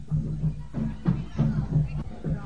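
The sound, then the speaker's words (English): Murmur of a thick crowd of marchers at a street march: many overlapping voices form a steady, dense babble over a low hum, with no single voice standing out. “I'm gonna have to walk with the crowd here. It's just too thick to turn around.”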